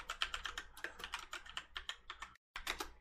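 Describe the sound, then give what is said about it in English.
Rapid typing on a computer keyboard: a quick, irregular run of many light key clicks, fairly faint, with one brief pause before a last burst of keystrokes. “You can hear me type in.”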